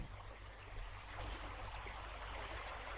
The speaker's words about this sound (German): Das Bächlein-Plätschern, ja. So schön.